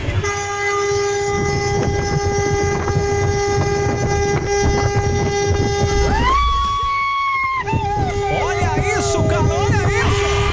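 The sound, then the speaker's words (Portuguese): A loud horn blares in the early-morning dark from a passing train, one long sustained harmonic blast that shifts to a wavering, different pitch near the end, over a deep rumble and rhythmic rail clatter. “Ele buzinou, mas com vontade, cara, na madrugada.”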